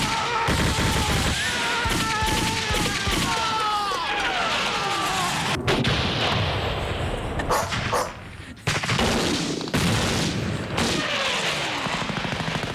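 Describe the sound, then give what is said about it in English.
Gunfire sound effect of shots at a mouse that put holes in a floor: sharp, loud cracks burst out now and then through a dense, continuous mix of clattering noise. “Now we definitely need that downstairs studio because I just shot holes in the floor.”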